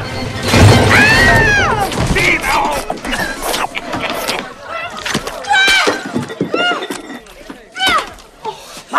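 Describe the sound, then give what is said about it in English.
Crashing and smashing as Dino bursts in and runs along a party table, scattering food, glasses and table displays: many loud clattering impacts and shattering hits in a chaotic jumble, with shouting voices throughout. “Dino bursts into the room with the tree still attached to him. He jumps onto the table and runs along it, scattering the food, glasses, and the table displays in the process.”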